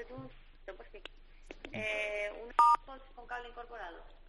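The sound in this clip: A brief, steady telephone keypad tone sounds once while a caller dials an Apple store, set between stretches of conversation.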